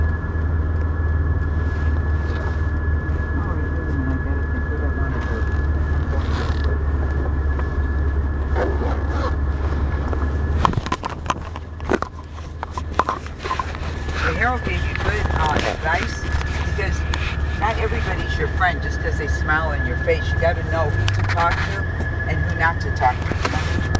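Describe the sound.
Hot rod car engine in a video game, droning steadily at a low pitch under a constant high tone, then turning rougher and busier with scattered crackling bursts through the second half.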